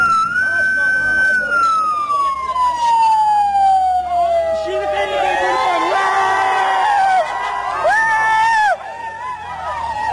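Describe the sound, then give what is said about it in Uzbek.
A police car siren sounds loudly amid a cheering, shouting crowd. The wailing tone glides steadily downward in pitch while the crowd noise stays dense and excited throughout. “Tasvirlarda o'nlab odam qurshab olgan IIB mashinasining qattiq signal berayotgani, so'ngra mashinaning katta tezlikda haydab ketilgani hamda odamlarning xursandchilik bilan baqirgani eshitiladi.”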